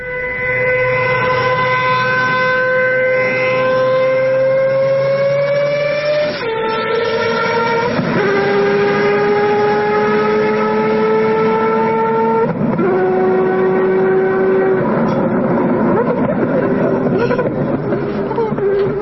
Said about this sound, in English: The downshift is insane. That is so cool. So that sounds like a bike.